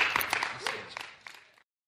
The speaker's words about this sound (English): But why don't we give him a round of applause and welcome.